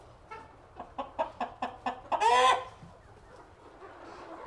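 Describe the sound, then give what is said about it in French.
A hen clucks in a farmyard: a quick run of short, evenly spaced clucks builds into one longer, louder, drawn-out squawk, then the yard falls quiet. “la poule dans la basse-cour, que fait-elle donc? Elle gronde ses poussins qui font des coquins dans la botte de foin.”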